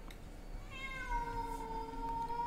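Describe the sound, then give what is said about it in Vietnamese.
A cat gives a single long, drawn-out meow. It is faint and starts after a brief quiet moment, with its pitch gliding at first, then settling and holding steady until the end. “nghe tiếng của con mèo kêu thì giật mình ngồi dậy”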